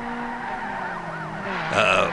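Tires squeal with a wavering, sliding pitch as a car skids toward a lake. A sharper, louder tonal burst comes near the end.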